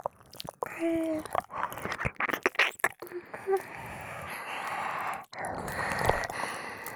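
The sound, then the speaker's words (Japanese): ASMR ear licking: soft, wet mouth sounds with clicks, smacks and slurps, quiet and irregular, with breathy pauses between bursts. “お耳を舐めてあげるね”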